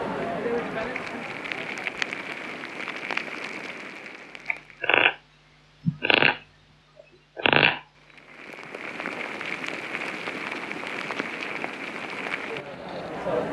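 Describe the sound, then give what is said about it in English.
Insects in garden soil make a dense, scratchy crackling that runs continuously, broken in the middle by a few loud rasping bursts. “I wouldn't have thought that insects in the soil could be that loud.”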